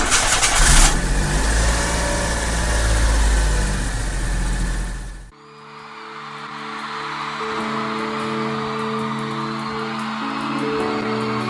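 A car engine cranks and fires with a loud, rough roar for about five seconds, then suddenly drops into a steady, humming idle that continues to the end.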